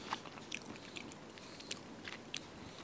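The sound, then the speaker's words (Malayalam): Faint, soft chewing of sticky jackfruit preserve (chakka varatti): a few moist clicks and smacks at irregular intervals over near-silence, with no talk. “നമ്മൾ ചക്കവരട്ടി കഴിച്ചോണ്ടിരിക്കാണ്.”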